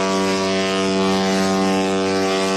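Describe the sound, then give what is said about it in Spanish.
Long ship horn blast from the Windsurf, a luxury sail-and-motor cruise ship, arriving at the port of Almería; one loud, steady, rich harmonic tone holds unbroken for the whole stretch. “Bueno, ya echábamos de menos este sonido. Este lujoso velero a vela y motor, uno de los asiduos de la ciudad, ha llegado al muelle de Levante con unas 200 personas entre pasajeros y tripulación.”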